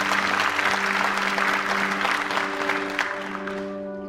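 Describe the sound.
Applause welcoming a group of musicians with cajon, singer and two guitars: a dense wash of clapping that gradually tapers off, with a steady low tone sustained underneath.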